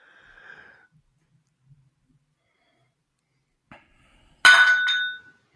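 Glasses clink together in a toast among friends watching a movie: a bright, ringing clink near the end follows mostly quiet moments broken by a few faint small knocks.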